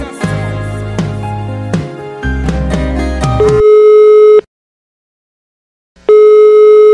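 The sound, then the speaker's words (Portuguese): A telephone ringing tone after a call is placed, following a stretch of music: one steady, humming tone, then a long silence, then the tone starting again, loud and alone. “E enfim, cheguei no local, mas primeiro eu faço uma ligação.”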